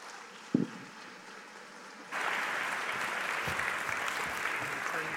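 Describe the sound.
An audience applauding to welcome a guest speaker in a church sanctuary: after a single dull thump and a quiet stretch, broad, steady clapping begins about two seconds in and continues to the end.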